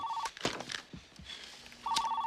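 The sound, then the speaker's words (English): A telephone rings in a house at night during a storm. Two short, bright trilling bursts sound, one at the start and one at the end, with faint rumbling noise between them. “The phone wakes her parents, Peter and Anne”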